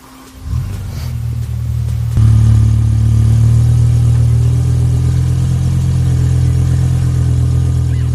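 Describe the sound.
A BMW M5 E60 engine cranks and fires, then settles into a deep, loud, steady rumble that steps up to a stronger level after about two seconds and holds there with a purring low drone.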